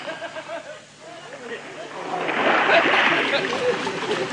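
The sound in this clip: Water splashing as people bathe in a river, a broad steady wash that swells louder through the second half after a quieter opening, with voices talking and murmuring throughout.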